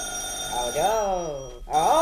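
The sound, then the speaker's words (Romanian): An old household telephone rings with a steady, piercing high-pitched tone while voices speak over it. “Aoleu, cum țârâie drăcovenia aia. Parcă-mi găurește urechile. Păi da, e telefon să țârâie.”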